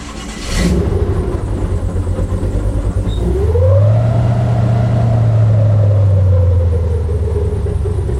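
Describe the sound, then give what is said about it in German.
Airboat with a huge propeller on a big engine: a loud, deep, continuous engine drone that surges upward in pitch partway through, then holds a steady, powerful roar. “Das heißt, das ist ein riesen Propeller an einem riesen Motor und entsprechend laut ist das Ganze.”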